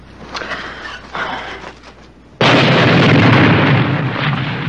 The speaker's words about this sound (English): Well, money clip, I'm surprised at you. It is also a bomb.